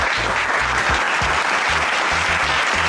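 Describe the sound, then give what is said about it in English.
Loud, dense audience applause welcoming the host of a sports radio show, a continuous wash of clapping that holds steady from start to finish with no voices over it. “And now, please give it up for your host, Big Lou.”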